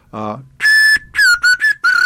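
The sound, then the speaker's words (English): Concert slide whistle, the kind used in symphony orchestras, playing high notes: a long held piercing tone followed by several short, clear whistled notes in quick succession, fairly loud and alone. “Your high notes are on this concert slide whistle, which incidentally you'll find with most every symphony in the country,”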